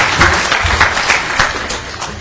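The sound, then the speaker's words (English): Audience applause welcoming a latecomer at a talk: dense, steady clapping from many hands, loud and continuous throughout with a slight swell and no voices over it. “Come on, clap. There you go.”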